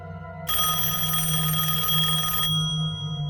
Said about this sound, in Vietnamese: Tôi bị tiếng chuông điện thoại làm cho giật bắn mình.